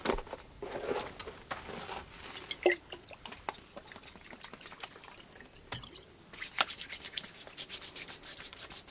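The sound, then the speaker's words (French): Hands briskly rub a person's icy legs soaked in alcohol, a faint, continuous run of scrubbing friction strokes with light wet sounds. “Il les arrosa d'alcool et se mit à les frictionner de toutes ses forces.”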